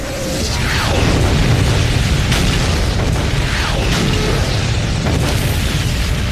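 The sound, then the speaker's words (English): Artillery explosions from a creeping barrage moving ahead of advancing infantry: a dense, continuous roar of overlapping booms and rumbling blasts, loud throughout with no clear gaps and no voices. “Now the artillery launches a creeping barrage, designed to provide a moving curtain of steel to protect the advancing infantry.”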